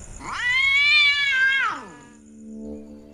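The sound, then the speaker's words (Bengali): A cat at a window lets out a single loud, drawn-out meow that rises in pitch, holds, then falls away. “তারপর কিছুক্ষণ পর বুঝতে পারলাম ওটা একটা বিড়াল মাত্র।”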